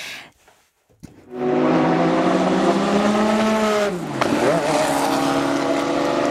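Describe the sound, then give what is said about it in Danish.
A race car engine howls at the Le Mans 24-hour race, starting after a brief quiet, a loud sustained harmonic roar that dips sharply in pitch partway through, then climbs again. “Den her lyd blandet med duften af brændt gummi og benzin i sommervarmen, så taler vi altså Le Mans.”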